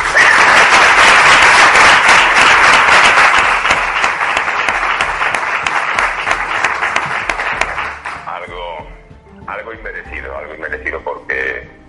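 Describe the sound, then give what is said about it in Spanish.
Audience applause at a live show held at the Círculo Mercantil: loud, dense clapping for about eight seconds that gradually fades as a voice begins speaking. “Y llévate este aplauso también tú.”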